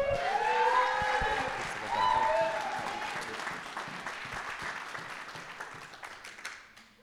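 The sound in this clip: A church audience claps warmly to welcome a preacher, with high whistles riding over the opening seconds. The applause stays loud and dense, then gradually thins and fades out.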